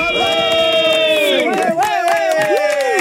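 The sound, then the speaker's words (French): A man yells as loudly as he can, a sustained, strained cry whose pitch wavers and shifts. Other voices and crowd noise run loudly beneath it. “je veux que tu cries le plus fort possible. Ici, vas-y, je veux que tu te gosilles.”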